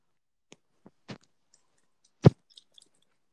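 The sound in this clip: Crunchy chewing of a cookie: a few sparse, faint clicks and bites, then one loud crunch near the end, with quiet gaps between them.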